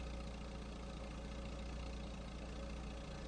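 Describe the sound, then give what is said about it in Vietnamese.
Steady engine idling from a car that has just arrived, a dense, even rumble that holds at the same level throughout with no voices. “Xe tới rồi. Xe tới rồi không đó.”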